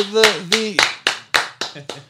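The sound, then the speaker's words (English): Rhythmic hand clapping in a radio studio, about eight sharp claps at an even, unhurried pulse, with a voice sounding alongside some of them. “Clap, yeah, clap.”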